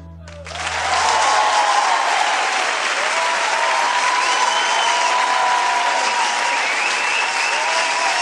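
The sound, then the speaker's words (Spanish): Loud crowd applause breaks out abruptly after a brief musical note and continues as steady, dense clapping for about eight seconds at an even level. “Ese aplauso”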